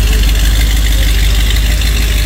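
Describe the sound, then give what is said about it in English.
The engine of a 1966 Corvette roars as the car drives off down a residential street. Its loud, dense rumble holds steady throughout, with no voices. “he revved it, of course, on our street. See ya. Yeah. This is a 66 Corvette”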